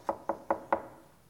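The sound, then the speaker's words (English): Four sharp knocks on a door late at night, evenly spaced and fairly loud, each dying away quickly before quiet follows. “I was pastoring my first church, and I had a knock late that night.”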